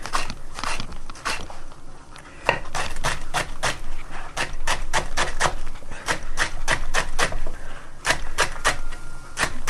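Sharp knife strokes slicing a leek into thin strips, many crisp, evenly spaced cuts in a steady rapid rhythm, moderately loud, with no talk.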